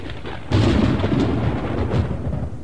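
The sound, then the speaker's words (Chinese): Thunder rolls across the sky: a deep rumble breaks in abruptly with a loud low burst, then keeps rolling heavily and evenly to the end. “这时天上滚过一阵雷声”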